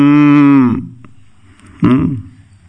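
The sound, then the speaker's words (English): Cows mooing: two drawn-out, harmonic lowing calls, the first long and loud and fading away, the second shorter and rising sharply after a quiet gap. “Okay, we have a few cows here. We had only a few, now we have a few more.”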